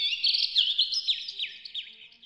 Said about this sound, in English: I love being in the forest and hearing the birds chirping.